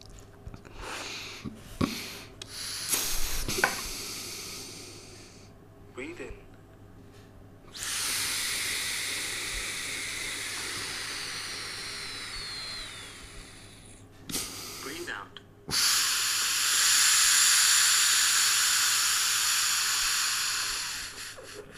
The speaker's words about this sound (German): Okay, habe ich jetzt gemacht, also ihn eingeatmet und ausgeatmet. Und jetzt kriege ich hier den Score.